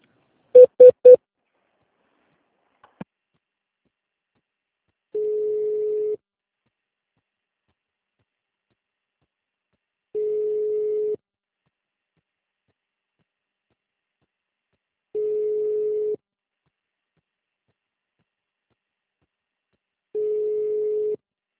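Telephone tones from a call being transferred to another department: a few quick dialing beeps at the start and a faint tick, then four long, steady, identical tones spaced evenly apart, with silence between and no voices.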